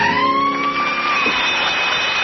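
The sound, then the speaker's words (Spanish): Sirens sounding at night, a loud sustained wailing tone with a slow pitch sweep that runs the whole clip, with no voices. “Ya lo había anunciado yo, que a lo largo de la noche en algún momento iban a sonar las sirenas y ya está aquí.”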